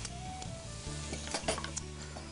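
Shrimp sizzle in a frying pan as they are stirred and pushed aside, giving a steady crackling hiss with a few light clicks and scrapes from the utensil.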